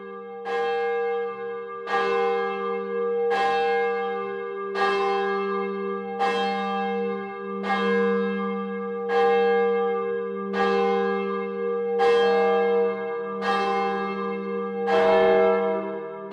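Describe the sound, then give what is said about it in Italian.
A church bell striking six o'clock with many evenly spaced, resonant strokes about every one and a half seconds. Each stroke rings out and hums into the next, and no voices are heard. “Ecco, suonano le 6.”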